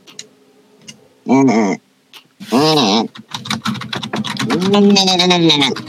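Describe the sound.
Typing on a computer keyboard, many quick light clicks pattering in an uneven run beneath a person talking.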